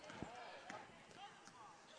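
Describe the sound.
A basketball dribbled on a court during a Nashua North game gives steady, evenly spaced thuds, one after another, under a commentator's fast play-by-play.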